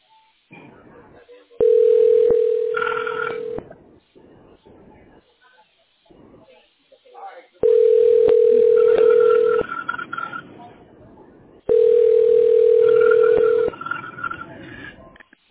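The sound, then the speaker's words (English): A telephone ringing tone sounds on a call being transferred to a tax specialist: three long, steady buzzing rings of about two seconds each, evenly spaced, with faint line hiss and low noise in the gaps. “Okay, we're dialing now.”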